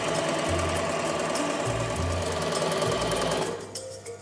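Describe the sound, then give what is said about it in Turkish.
Overlock sewing machine stitching a knitted sweater, a loud steady motor hum with a rapid mechanical chatter of stitching, which drops away near the end. “Giydiğimiz kazakların hepsi bu aşamadan geçiyor. Şimdi dikiyorum. Geliyor.”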